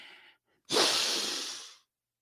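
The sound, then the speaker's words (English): A long, slow inhale of breath: one steady, airy draw lasting about a second, soft and breathy, heard alone with no talk. “just put your feet on the ground and take a nice, long, slow inhale.”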